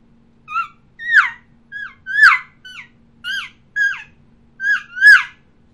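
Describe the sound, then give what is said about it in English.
Elk calf call imitated by a human caller, in which a calf tries to locate its mother: nine short, high, nasal mews, each rising then sliding down, in a quick uneven series against quiet background. “that calf sounds like this when she's trying to locate mom.”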